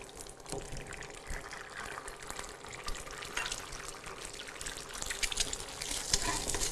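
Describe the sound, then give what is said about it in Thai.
An egg sizzles as it fries in a pan during preparation of a spicy Thai salad. A steady crackling hiss runs throughout, with faint scraping and stirring over it. “โอเคมาค่ะขออีกหนึ่งฟองนะค่อยๆใส่ลงไปค่ะ”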